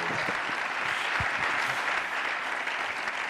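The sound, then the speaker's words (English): Church audience applauding to welcome a guest speaker, dense and steady clapping that holds an even loudness throughout. “Put your hands together. Give a real good Lakeside welcome to Jeremiah Johnson.”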